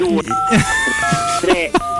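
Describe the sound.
A telephone sounds electronic tones for an incoming call, steady pitched beeps running under animated talk from several voices.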